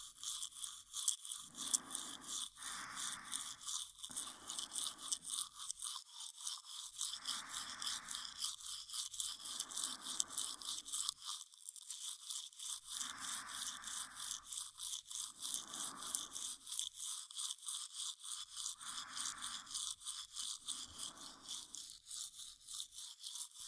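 A toothbrush scrubs teeth in many bristly back-and-forth strokes, grouped into short bursts with brief pauses, over a constant high hiss and with no voices.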